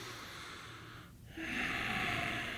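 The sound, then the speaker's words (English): A breath of air drawn in, heard as a soft airy hiss that dips briefly and then swells into a louder, steady rush of air lasting over a second, with no talking. “That was not a nutritious breath of air. Take another breath.”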